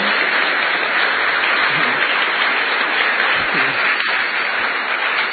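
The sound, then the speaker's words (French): Applause from an audience at a public talk before a question session: dense, sustained clapping that holds steady and loud throughout with no pauses. “Est-ce que le public peut acclamer pour lui-même?”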